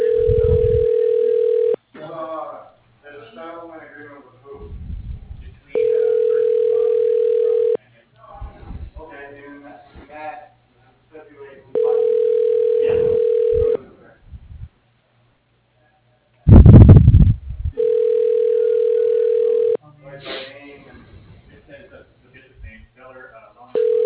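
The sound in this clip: Telephone tones sound while calling an office extension: four long, steady bursts of the same tone, with an automated voice speaking in the gaps between them.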